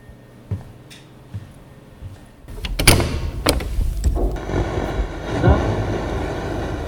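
A door is opened in a radio drama: a few soft taps, then a swelling rush of sound with sharp latch clicks, and a low rumbling background that grows louder and continues to the end.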